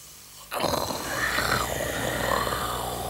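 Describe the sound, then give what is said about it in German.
Snoring from a sleeping king lying in damp grass: a rough, rasping rumble that starts abruptly and drones on at a steady level with a grainy, throaty texture. “Er schnarcht sich auch noch mal die Seele aus dem Leib.”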